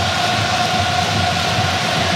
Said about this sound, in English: There's a great noise in here. The Dutch always travel well, but it's a very, very large contingent of Japanese supporters in here too.